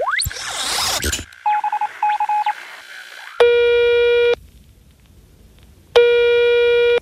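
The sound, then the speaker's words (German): A telephone number dialed on a handheld communicator: after a short whooshing burst comes a quick run of clipped dialing beeps, then two long, steady ringing tones separated by a silent pause. “Den rufe ich jetzt einfach mal an mit dem X-Funker, oder Yvonne? Ja, das machen wir. X-Funker, bitte einmal Ludwig von der Erde anrufen.”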